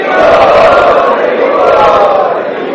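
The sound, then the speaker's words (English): A temple audience loudly chants in welcome: a loud, sustained chorus of many voices that holds steady for the whole stretch, with no gaps. “So let us welcome all these wonderful souls to our temple by 3 times loudly chanting.”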